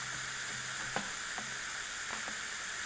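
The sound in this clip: Food sears on a hot $25 panini press with a faint, steady sizzle and hiss, broken by a few soft ticks.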